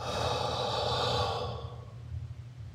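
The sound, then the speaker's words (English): A deep breath in and out taken during a relaxation exercise, one long, airy breath that is loud at first and then fades away, heard alone without talk. “Inhale. Exhale.”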